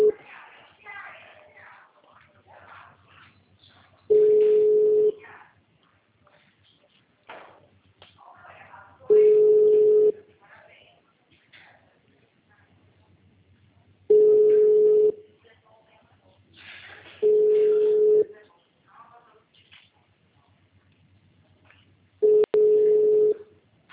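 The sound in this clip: Ringback tone of a telephone call placed to city hall: five steady, low-pitched tone bursts repeat at regular intervals, with faint voices and murmur in the gaps between them.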